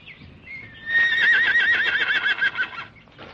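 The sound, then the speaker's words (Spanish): A horse whinnies in a forest: one loud, quavering neigh lasting about two seconds, its trembling tone fading out at the end. “Llegan hasta los caballos. Buenos caballos, ¿eh?”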